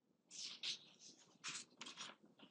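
Scratchy strokes of a pen or chalk on a board as a sphere diagram is drawn during a maths lecture, coming in several short bursts of varying length, faint and with no talk over them.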